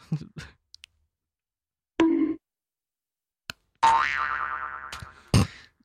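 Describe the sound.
Sound effects triggered from a soundboard: scattered clicks and short bursts, then a long, springy, cartoonish boing, and a final sharp burst, with silent gaps between them.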